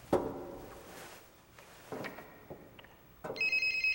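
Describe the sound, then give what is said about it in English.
A cell phone ringtone starts up on a boat in an underground reservoir, bright electronic tones arriving near the end after a few soft knocks and clunks over a low background hum. “Joseph grabs his cell phone and sees that it's Laura calling.”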